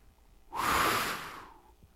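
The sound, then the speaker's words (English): A long, forceful breathy exhale made by a person imitating a divine breath. It swells quickly, holds for about a second as a soft rushing hiss, then fades away, with no talk around it. “that's the breath that filled your lungs when you were in your mother's womb and gave you life.”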